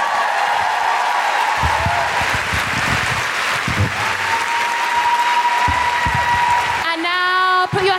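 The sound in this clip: Audience applause: dense, steady clapping from a crowd that holds at an even, loud level for several seconds, with a voice starting to speak over the tail end.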